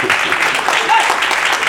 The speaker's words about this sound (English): You ain't got to clap, but Pastor enjoys singing.